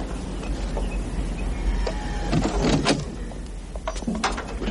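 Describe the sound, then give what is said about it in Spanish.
A car boot is opened after arriving at a house under construction: a few dull mechanical clunks and latch clicks over a steady low rumble. “Se bajan del coche y abren el maletero.”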